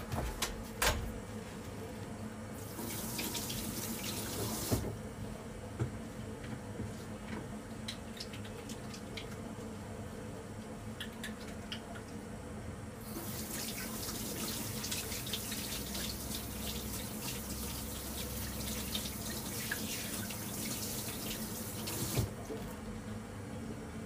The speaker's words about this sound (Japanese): ちょっと手洗って、